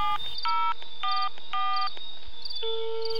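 Telephone keypad tones as a number is dialed to place a call, a few short dual-pitched beeps in quick sequence, then a steadier tone at the end, clear over faint background hiss.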